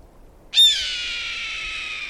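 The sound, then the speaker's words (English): A red-tailed hawk gives one long, hoarse, high-pitched scream that starts sharply and trails off into a drawn-out rasp, heard alone with no other sounds. “If you hear this sound coming down from the heavens, look up. You'll see a hawk soaring in a wide circle, eyeing the landscape, including you. This one's a red-tailed hawk.”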